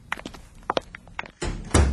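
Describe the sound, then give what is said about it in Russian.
A kitchen door slams shut. Light knocks and rattles come first, then a heavy thud with a dense, rumbling boom that stays loud to the end. “Она хлопнула кухонной дверью, и мы остались сидеть за столом.”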